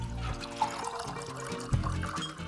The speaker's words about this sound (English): She pours out a couple of generous measures of brandy.